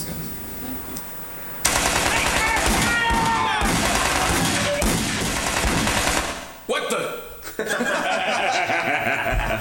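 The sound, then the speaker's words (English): Rapid machine-gun fire in a shootout as attackers burst through a door: loud, dense bursts that run for several seconds, break off briefly near the end, then resume. “They're going to burst through the door and start shooting everybody in the joint.”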